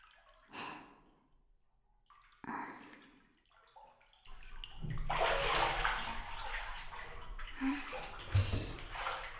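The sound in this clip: Bathwater moves in a tub as someone bathes. Soft, breathy sounds and faint water noises come first, then a louder, steadier wash of sloshing water with an occasional drip.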